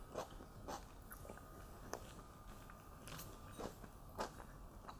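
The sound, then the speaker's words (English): Someone bites and chews juicy, locally picked plums. A few faint, sharp wet clicks and squelches are scattered over a quiet background, with no talk. “You guys let me know while I pop another plum. Delicious. So juicy.”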